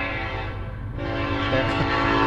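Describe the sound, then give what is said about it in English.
A train sounds its horn at a railway crossing: a sustained, loud harmonic horn tone over a steady rumble that holds for the whole clip. “we're near a train crossing, actually. Might be a little distracting.”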